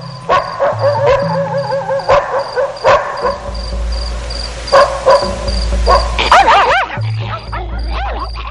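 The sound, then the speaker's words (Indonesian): A pack of eight dogs yelping and barking: many sharp, loud barks in an irregular rhythm, with high, wavering yelps clustered near the end. “tiba-tiba terdengar suara mendecit, diikuti dengking anjing-anjing milik Pak Hartono”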